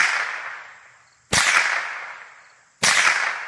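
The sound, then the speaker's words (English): Rifle shots fired by a ten-year-old boy during target practice: three loud, sharp cracks about a second and a half apart, each followed by a long, fading ringing tail. “posts videos people send in of their kids target practicing. This boy's 10.”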